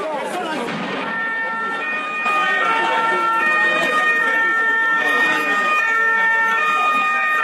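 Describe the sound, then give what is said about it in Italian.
Police van sirens wail during a tense street protest in Bagnoli against a government decree. The siren tones are loud and sustained, stacked in steady high pitches that hold throughout. “Petardi e sirene delle camionette della polizia in un pomeriggio ad alta tensione a Bagnoli per il corteo contro il decreto sblocca Italia.”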